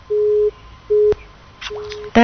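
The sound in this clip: A telephone busy tone after a call is cut off: a steady mid-pitched beep sounds three times in even pulses, the last one fainter. A sharp click falls between them, and a short burst of noise comes at the end.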